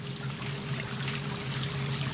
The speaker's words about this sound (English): Showering, Will scrubs at his armpit with a brush.